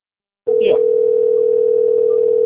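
A telephone line tone sounds on an unanswered call that keeps ringing: after a brief silence, one steady, unbroken mid-pitched tone holds at an even level to the end.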